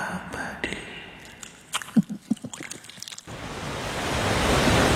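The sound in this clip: Ocean surf on a beach strewn with plastic litter comes in as a broad, steady wash that swells louder over the final seconds. Before it, a few short knocks and scattered faint sounds are heard.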